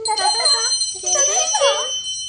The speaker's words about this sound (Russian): Согласно зазвенели маленькие колокольчики.